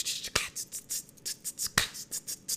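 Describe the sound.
A person snaps their fingers to imitate the claps of a basic trap beat, producing a quick string of sharp, crisp clicks in a fast, uneven rhythm, with two louder accented snaps.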